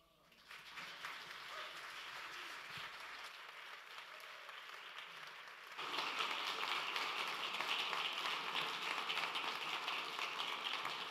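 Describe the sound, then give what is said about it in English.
Audience applause greets a speaker coming on stage after a song. Steady, dense clapping carries on alone and swells noticeably louder about halfway through, staying full until the end. “I always love to come out after a great song because then I'm getting an applause as I come on stage.”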